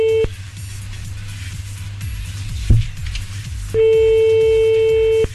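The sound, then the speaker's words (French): A telephone line ringing during a call: a steady mid-pitched ring tone cuts off at the start, then after a pause of low hum another long, even ring tone sounds. “Ça sonne.”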